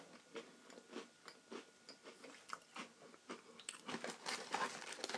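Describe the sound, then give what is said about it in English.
Crunching and chewing of Oreo cookies, some dunked in milk, eaten close to a microphone. Many irregular crisp bites and mouth sounds are faint at first and grow louder and denser toward the end. “in terms of the listener getting bored with me eating Oreos on mic”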